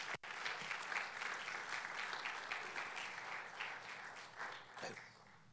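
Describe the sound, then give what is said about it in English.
Applause from a church audience welcoming a pastor to the stage during an evening service. The clapping is dense and steady for the whole stretch, staying at an even level with no voices rising above it. “Would you give a warm welcome to Pastor Raul Diaz as he comes?”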